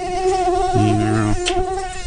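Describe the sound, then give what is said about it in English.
A bug buzzes as it flies around, its thin, steady, whining drone holding continuously without pause or voices. “there's a lot of bugs around here. Get that bug.”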